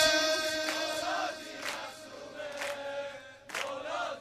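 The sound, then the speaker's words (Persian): A crowd of mourners at a Heyat al-Zahra mourning gathering sings a sustained, droning chant, with a few swelling bursts of massed voices rising above it. “خدا وکیلی صدای این جمعیت هیئت الزهرایا کجا؟”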